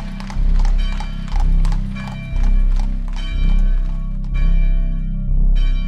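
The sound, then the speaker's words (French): Hooves of a horse pulling a carriage clip-clop over the cobbled streets of Saint-Pierre as it sets off, a loud, steady rhythm of hoofbeats rolling on without pause. “Et la calèche, chargée de la famille plus ou moins rassurée, s'ébranla dans les rues pavées de Saint-Pierre.”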